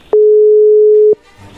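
A telephone busy signal sounds while a call is being placed: one steady, mid-pitched electronic tone, loud and clean, lasting about a second, then faint low noise.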